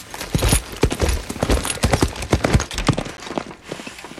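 Horse hooves clip-clop as a rider sets off, with many loud, quick hoofbeats in a steady, uneven gallop rhythm and no voices over them.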